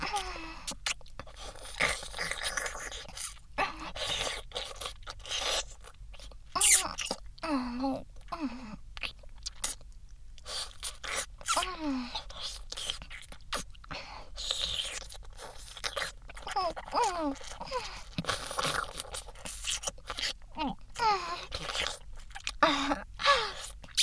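Food being bitten and chewed, with many sharp, crackling crunches in an irregular rhythm throughout, broken by short vocal moans and groans between bites.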